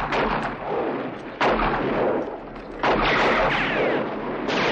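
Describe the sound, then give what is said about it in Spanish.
Gunfire from a shootout in a 1960 Western film as gunmen fire at outlaws: sustained dense crackling and booming, with a few sharp, louder shots standing out. “Chris y sus hombres se parapetan rodeando la esplanada y disparan a los forajidos.”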